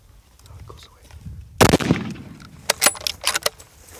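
A gunshot goes off during a hunt: the second shot at a wounded animal that a dog is holding at bay. It is one sharp, loud crack with a short decay, followed by scattered clicks and rustling.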